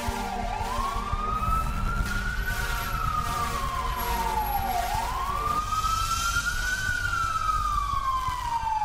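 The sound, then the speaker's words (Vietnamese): An emergency vehicle siren wails on New Year's Eve while rushing a patient to hospital. It rises and falls slowly in long sweeps over a steady rumble of traffic and engine noise, continuous throughout with no voices. “Rồi sau đó là tiếng xe lao vùn vút đưa bà đi cấp cứu.”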